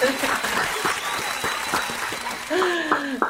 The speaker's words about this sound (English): Please give a warm Chief Chat welcome to Daphne Oz.